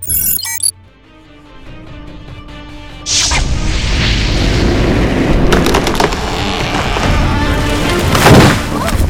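A dragon attack staged in an audio drama: a quiet tonal passage gives way to a sudden loud whooshing burst, then a sustained heavy roar and rumble with crashing textures that swells near the end.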